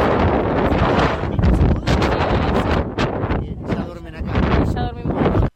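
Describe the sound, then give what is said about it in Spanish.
Strong wind blows across the open pampa and buffets the microphone in a loud, roaring rush with surging gusts, while people talk beneath it. “Bueno, ahí veíamos cómo el viento se metía en toda la emocionalidad, pero sería imposible, es la pampa, ¿no? Sin viento no es pampa.”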